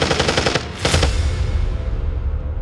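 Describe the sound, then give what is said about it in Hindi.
Machine gun fire in a night battle: a loud, rapid burst of shots, then a heavier blast fading into a sustained low rumble. “बस आ रही थी machine गनों की आवाजें और वो बढ़ जाता है उसी आवाज की दिशा में।”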